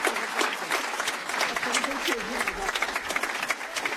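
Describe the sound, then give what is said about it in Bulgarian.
Audience applause at an evening pop and jazz concert given by a small combo from the National Music Academy, with a steady, dense patter of clapping throughout and some voices mixed in. “Аплаузи за всички вас, които направихте това нещо възможно.”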